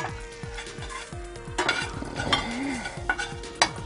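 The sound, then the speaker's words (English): Spices frying in avocado oil in a pan: a steady, crackling sizzle with many quick clinks and scrapes of stirring, busy and continuous throughout. “So now we're just going to throw in all our spices. We want those to open up a little bit and start to flavor our oil.”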